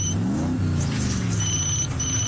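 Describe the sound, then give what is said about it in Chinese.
A car speeds away, its engine revving hard in a loud, continuous roar whose pitch climbs early on and then holds at a high drone. “而路易斯已经趁乱开车逃走。”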